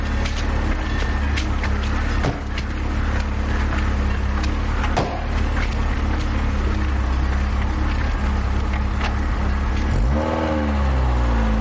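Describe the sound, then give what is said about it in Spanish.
A car engine drives away from a small rural house, a steady broad rumble with a few faint clicks, then a rising and wavering engine rev near the end. “Charlie y Marta se bajan y el coche se va.”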